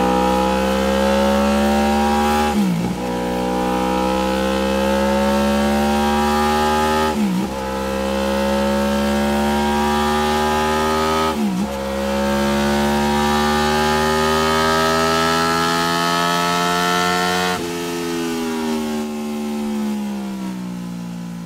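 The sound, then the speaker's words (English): A Honda-style VTEC car engine revs hard on a dyno, its droning note climbing steadily in pitch. Each long pull ends in a sudden drop before it climbs again, a few times over. The engine is loud throughout and no voices are heard. “Hear that VTEC kick in?”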